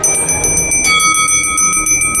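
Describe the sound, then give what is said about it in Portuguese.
A hand bell rung by a fortune-teller during a card-reading ritual: many quick, bright metallic strikes in a steady, rapid rhythm, ringing loudly with no voices. “Bato meu sino.”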